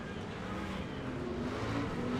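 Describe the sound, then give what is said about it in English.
Racing trucks battle on an oval track, their engines blending into a steady, fairly quiet roar that drones without break, with a faint rising and falling whine running through it. “The other two trucks getting into each other, slowing each other down. Here comes Mittag on the inside of one. McCracken trying to out-drag race him, but Mittag has the inside.”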